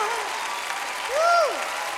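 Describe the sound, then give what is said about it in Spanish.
Applause from a church audience forms a dense, steady patter of clapping, with a voice speaking or singing over it and swelling briefly in the middle. “Dale ese aplauso fuerte.”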